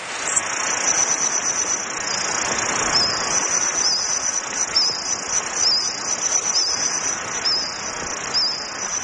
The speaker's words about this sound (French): c'est une reconstitution partielle. Ah. C'est le son de certains insectes du Jurassique.